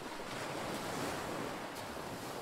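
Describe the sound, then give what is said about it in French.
Sea waves wash against the shore on a calm night, a steady, even hiss of surf mixed with wind, with no distinct breakers standing out and no voices. “C'est une nuit magnifique, dont le calme est perturbé par les seuls bruits de la mer.”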